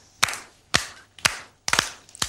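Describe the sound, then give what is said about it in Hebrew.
Loud hand clapping in a children's song about noisy and quiet games, crisp claps arriving in five separate bursts roughly half a second apart, some of them doubled, with near silence between. “מחיאות כפיים חזקות גם בבית.”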